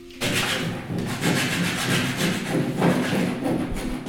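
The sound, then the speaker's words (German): Wood is sawn and sanded in a workshop on monastery grounds, where a small team builds a wooden nativity scene. Loud, steady rasping strokes repeat back and forth without pause, and no one speaks. “Es wird gesägt, geschliffen und gehämmert in der Werkstatt auf der Klosteranlage.”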